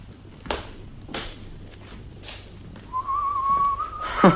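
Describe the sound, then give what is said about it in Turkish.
Soft whistling by a person: a single wavering, sustained tone near the end lasting about a second and a half, preceded by a few faint thumps in otherwise quiet surroundings. “Şöyle hafiften ıslık çalıp duruyorsunuz da.”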